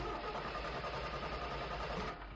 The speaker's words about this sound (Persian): بازم استارت بزن، استارت بزن. خب روشن شد.